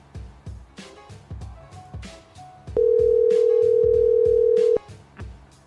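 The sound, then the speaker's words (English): A telephone dial tone heard while placing a call: a loud, steady, unbroken tone lasting about two seconds, set against a rhythmic background beat that carries on before and after it. “I'm going to call one more time just because.”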